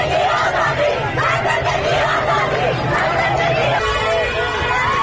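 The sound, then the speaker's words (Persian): Schoolchildren on their way home from school chant the slogan "Woman, Life, Freedom" together: a loud, continuous mass of young voices with overlapping shouts and yells running throughout. “بله، این صدای دهه 80 های ماست که بلدن شعارهای خودشونو بدن. به خصوص یکی از شعارهای محبوبشون همین شعار زن زندگی آزادیه که موقع برگشتن از مدرسه دست جمعی میخونن و میرن.”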